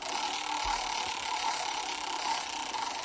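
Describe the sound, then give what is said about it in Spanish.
A roulette wheel spins in a quiz game with a faint, steady ratcheting clatter of clicks that runs evenly for about three seconds. “Vamos a darle a la ruleta,”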